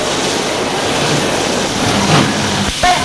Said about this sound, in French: Le train se prépare à se mettre en route.